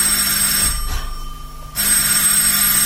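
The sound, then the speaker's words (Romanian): A doorbell rings with a loud, continuous metallic buzzing ring, briefly thins out for under a second, then rings again at full strength, alone with no voices. “Sună cineva. Mă duc eu să deschid.”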